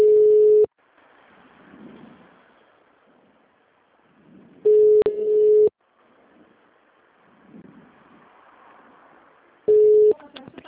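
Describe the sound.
Telephone call transfer tones on a business line: three steady, mid-pitched beeps spaced about five seconds apart, the middle one longest, with faint hold sound in between.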